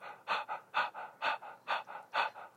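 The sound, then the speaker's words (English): Breath-of-fire yoga breathing done through the mouth, a rasping, Darth Vader-like pant of quick, forceful breaths repeating many times in a steady, even rhythm, soft and alone without talk. “breath of fire, it's kind of like, I call it like a Darth Vader breath. So it's kind of, you're doing it through your nose, but it's kind of like this. If you were to do it through your mouth, it would be like this.”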